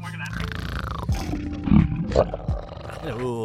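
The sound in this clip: A voice imitates a dragon roar, producing rough, throaty growls with a few louder bursts in the middle and a strained, wavering tone toward the end.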